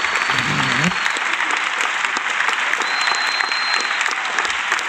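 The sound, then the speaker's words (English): An audience at a live comedy show applauds in dense, steady clapping that fills the whole stretch, and a voice is briefly audible under it at the start. “Please clap.”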